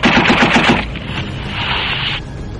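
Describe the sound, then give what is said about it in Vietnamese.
A rapid burst of gunfire fired at an aircraft: several sharp shots in quick succession, loud and dense, then a steadier rushing noise that continues after the shots stop. “Con chó Tây Tạng vừa dán mình xuống sàn phi cơ thì một tràng đạn chát chú khác tiếp theo.”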